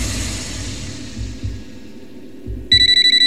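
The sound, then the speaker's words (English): Telephone ringing late at night: a bright, rapidly pulsing electronic trill starts abruptly near the end, after a low, fading background rumble. “the phone rings, and I answer the phone, thinking, who's calling me this late?”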